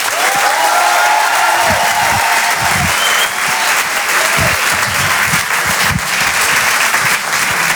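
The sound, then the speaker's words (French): Applause from a comedy club audience for a comedian: loud, continuous clapping that stays strong and even throughout without letting up. “On peut l'applaudir très très fort, Kevin Devonne, sur Rire et Chansons. Rire et Chansons Comedy Club. Je vous demande de faire un maximum de bruit, s'il vous plaît, pour Tristan Lucas.”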